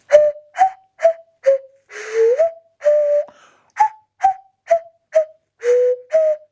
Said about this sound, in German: Ich habe auch noch eine Nasenpfeife, wollt ihr die mal kurz hören, die Nasenpfeife? Pass auf, die klingt so.